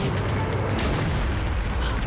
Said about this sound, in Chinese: 可是我们只有三发炮弹， 关键是看射击的质量。预备，放！